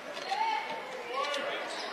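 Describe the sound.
A basketball is dribbled on a court during a boys' high school game, its repeated bounces running under steady play-by-play commentary.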